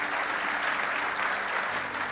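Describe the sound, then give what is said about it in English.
Applause from a church audience thanking the band after a song: steady, dense clapping that holds at an even level for about two seconds, with no voices standing out. “I could tell you I wanted to applaud the band, so let's go ahead and say thank you for that song.”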